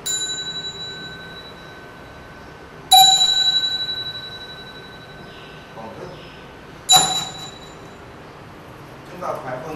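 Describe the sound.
A Buddhist temple chime, a khánh, is struck lightly twice, each strike a bright metallic ding that rings on in a long, slowly fading shimmer of sustained tones.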